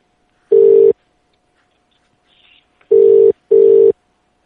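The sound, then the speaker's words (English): Telephone keypad tones sound while dialing to add a conference call: three steady, mid-pitched beeps, the first on its own and the next two close together, with a faint brief rustle in the gap and no talking. “Yeah, I had to hit dial. Duh. I take call. Add to conference.”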